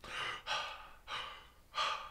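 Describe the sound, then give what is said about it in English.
A person imitates heavy, tense breathing from a movie trailer, with four breathy, soft breaths in a steady in-and-out rhythm and no words spoken. “So we start this trailer with Rey. All right. With Rey. Breathing.”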